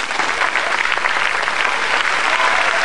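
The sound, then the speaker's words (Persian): Audience applause at a religious talk: dense, steady clapping from many hands, loud and even throughout with no breaks. “چرا اینقدر دست میزنیم فرصت کم داریم”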